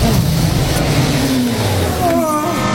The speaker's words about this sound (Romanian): Uite, mașina din fața a pornit. Pleacă, domnule